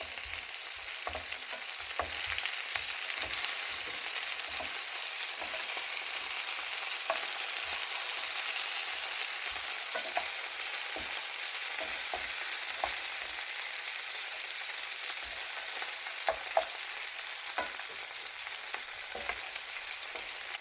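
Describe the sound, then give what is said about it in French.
Meatballs fry in a pan over high heat with a constant, even sizzle, while scattered light pops and taps mark them being turned. “C'est le moment de retourner nos boulettes. Mmh. Elles sont bien colorées.”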